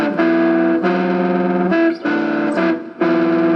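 Distorted electric guitar plays a series of loud, sustained chords built from stacked fourths on a pentatonic scale, each ringing with heavy fuzz before the next one is struck.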